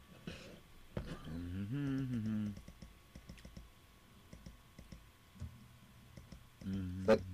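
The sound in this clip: Sharp clicking on a computer comes in short, scattered bursts. Voiced hums and murmurs sit between and around the clicks, and they are louder near the middle and at the end.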